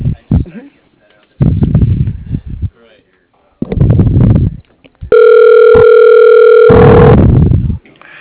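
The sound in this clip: A telephone line tone sounds while a call is transferred: a steady electronic two-pitch tone of about two seconds follows bursts of talk, and a voice overlaps its end.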